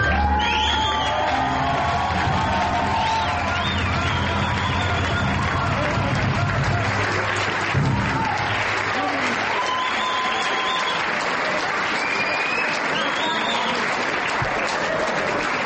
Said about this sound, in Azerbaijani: caz musiqisinin həvəskarları gənc ifaçılarının çıxışını böyük coşquyla və alqış sədaları ilə izləyirdilər.